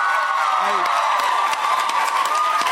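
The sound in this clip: A Comic-Con-style studio audience cheers and applauds as a guest enters, making a loud, unbroken wash of clapping and shouting voices that holds steady from start to finish.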